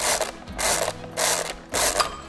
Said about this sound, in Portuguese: Uma máquina de calcular mecânica, Original Odner.